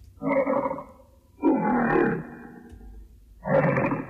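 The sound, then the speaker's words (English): An original lion roar recorded for an early film studio logo: three long, low, growling roars, each lasting about a second, separated by pauses of lower rumbling, at a fairly steady loudness. “Now here's the roar as we know it. And here is the original roar.”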